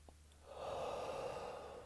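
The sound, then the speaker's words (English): A person inhales deeply: a soft, airy rush of breath that swells, holds steady, then eases off, faint and alone. “Inhale”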